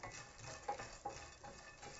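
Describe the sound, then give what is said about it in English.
Stirring of dry pasta toasting in a skillet, a faint scraping and sizzling rustle broken by a couple of soft clinks. “Pasta. Stirring. It's fine. Not burnt at all.”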